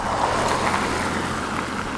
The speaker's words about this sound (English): There's some studded tires going by.